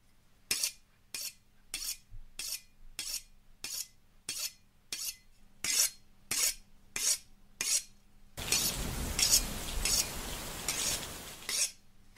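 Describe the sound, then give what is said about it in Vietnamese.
A butcher's knife drawn across a whetstone in many evenly spaced, sharp rasping strokes, followed by a few seconds of continuous harsh scraping. “Ông y mài mài con dao vào cục đá mài nghe đến giận người.”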